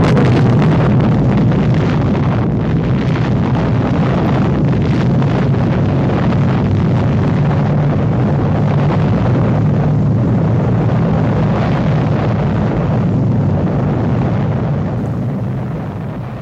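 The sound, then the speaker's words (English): Bomb detonating over London, rendered as a loud, dense, continuous roaring rumble that holds steady for the whole stretch with no voices, easing slightly only at the very end. “One of the bombs was allowed to detonate over London, which killed over 8 million people.”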